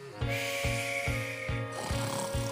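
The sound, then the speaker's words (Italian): A voice imitates a puppet character snoring in a rapid, rasping rhythm, with about six evenly spaced, grainy pulses like a saw stroking wood, over a steady tone. “Ma ormai Pulcinella russava, direi, in dialetto di Pompei.”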